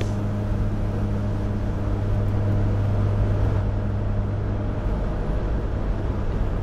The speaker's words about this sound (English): I am currently driving from Bournemouth to Bristol, which is my home city, and I really hate this journey home.